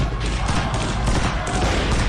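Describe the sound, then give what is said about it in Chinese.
Police gunfire into a crowd of protesters, heard as a dense, continuous crackling roar of overlapping shots that holds steady and loud from start to finish. “英帝国主义的巡捕向人群开枪，造成了多人死伤。”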